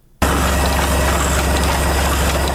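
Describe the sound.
A printing press runs with paper for a small book loaded in it, in Afghanistan. It starts abruptly and holds a loud, steady mechanical roar and deep rumble with no break.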